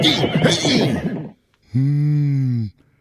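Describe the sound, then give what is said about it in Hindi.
A horse pulling a cart on the road neighs once in a steady, held call lasting about a second, following a burst of speech. “अरे रिक्शे वाला नहीं घोड़े वाला आ गया”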